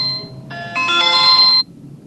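Electronic phone ringtone for an incoming call: layered bright tones build up in steps into a fuller chord, then cut off abruptly, leaving a faint low hum.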